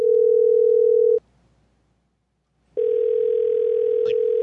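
A telephone dial tone sounds after a customer service call is hung up: a steady, loud, single-pitched hum that cuts off, leaves a pause of about a second and a half, then resumes unchanged.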